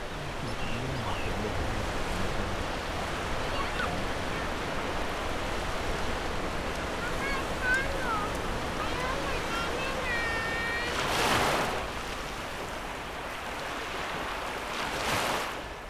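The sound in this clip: Ocean waves breaking on the shore at Pranburi, Thailand, near a sea wall, a continuous hissing wash with a couple of louder surges, faint voices of people and a few thin high chirps mixed in.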